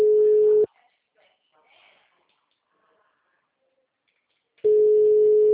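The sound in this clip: A telephone ringback tone for a call nobody answers: two steady, loud, mid-pitched tone bursts, one at the start and one at the end, separated by about four seconds of near silence with only faint small noises.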